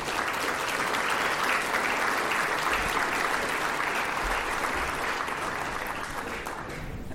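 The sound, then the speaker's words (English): Audience applause during thanks to program sponsors at a meeting: a sustained, dense round of clapping from many hands, steady and fairly loud for the whole stretch, with no voices over it. “Let's give a quick round of applause to the”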